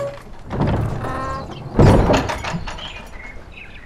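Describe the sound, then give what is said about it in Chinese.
A door is shut with one heavy thump near the middle, preceded by faint shuffling and softer knocks and followed by a quieter tail. “关门。”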